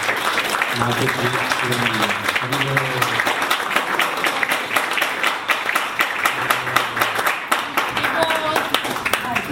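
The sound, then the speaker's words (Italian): An audience at an evening talk applauds with steady, dense clapping throughout, while voices rise over the clapping at moments. “Se possiamo fare un bel applauso per il ricevimento.”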